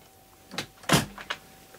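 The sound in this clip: A door is shut: a brief soft rustle, then one firm clunk, followed by a few lighter knocks. The whole sequence is short and fairly faint, with no talking.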